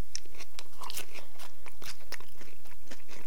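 Loud, crisp crunching as a homemade onion bhaji with insect in it is bitten and chewed, with many irregular crackly bites and no talking.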